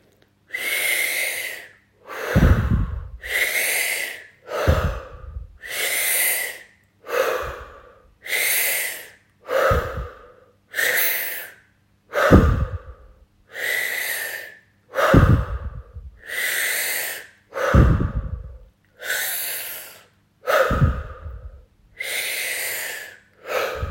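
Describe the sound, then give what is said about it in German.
Forceful breathing in and out during a breathing exercise: many strong, airy breaths in a steady, even rhythm, each a loud burst of rushing air, with no voices. “Stoße die verbrauchte Atemluft wieder kräftig aus. Atme kraftvoll ein und aus.”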